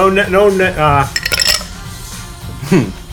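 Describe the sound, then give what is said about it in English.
Ice clinks in a glass of Coca-Cola in a brief cluster of bright, ringing clinks. A voiced tone comes just before and a short sound at the end. “Ooh, this is like a Coca-Cola commercial. It's a Coke on ice.”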